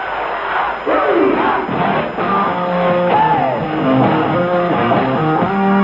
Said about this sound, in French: La foule quasiment extatique.